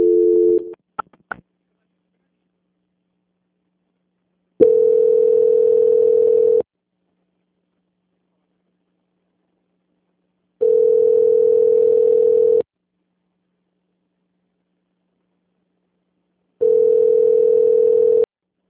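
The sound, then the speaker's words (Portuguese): Telephone call transfer tone on a muted line: a few short tones at the start, then three long, steady, mid-pitched beeps of about two seconds each, separated by long silences. “eu vou transferir o contato para o controle de qualidade, que vai dar continuidade à sua contratação, tá bom? A ligação ficará muda, mas vai entrar a auditoria. Transferência.”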